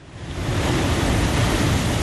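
Ocean waves wash against the shore at a coastal castle on Ghana's Cape Coast, forming a loud, steady, broad roar of surf that swells briefly at the start and then holds evenly, with no voices.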